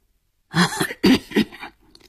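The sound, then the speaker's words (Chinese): Hoarse, raspy coughing from a cigar-smoking man, voiced by a performer: a few rough, throaty bursts in quick succession, fairly loud, then a faint tail. “他咳嗽了两声，声音沙哑地说”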